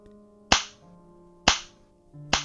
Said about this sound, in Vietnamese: Từng cú tát vang lên trong căn phòng trọ, theo đó là tiếng chửi rủa chát chúa.